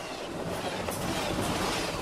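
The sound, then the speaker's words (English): A train passes on the railroad causeway across the Great Salt Lake, a loud, steady rumble with a rhythmic clickety-clack of wheels on rails that holds throughout. “Zipping past an oncoming train on this narrow causeway crossing the Great Salt Lake, Bill Johnson, a professor of geology and geophysics at the University of Utah, steers his Subaru with four graduate students packed along for the ride.”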